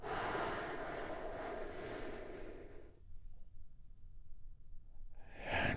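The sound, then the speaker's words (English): A long, deep breath drawn in softly, airy and faint, lasting about three seconds before fading into near silence. “we begin our healing moment of Zen by taking a big, deep healing breath together”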